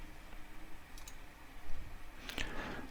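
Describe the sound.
A few faint, sharp computer mouse clicks in quick pairs while an SD card image is selected in a disk-writing program, heard over a quiet background hiss.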